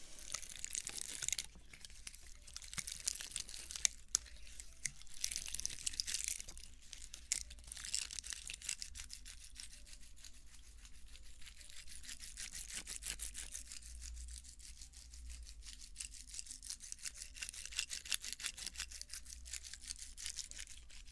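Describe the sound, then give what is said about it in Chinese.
Pine cones handled up close: a continuous dry, crackly rustling made of many tiny clicks and crunches, soft overall, with a few sharper snaps early on. “有人留言说想听松果的声音，然后我就一直忘了，然后现在终于再做一期这种出发音就想起来了。”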